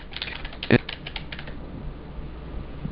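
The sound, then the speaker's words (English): Typing on a computer keyboard: a quiet run of light key clicks with one sharper, louder tap near the start. The clicking then fades into soft background hiss. “And I'm just going to type put cake in oven.”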